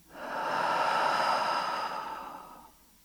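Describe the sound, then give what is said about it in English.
A single slow breath out through the mouth, soft and airy. It swells quickly, holds, and fades away over about two and a half seconds, heard alone with no talking. “Out through the mouth. One more time. Breathe in. Release it.”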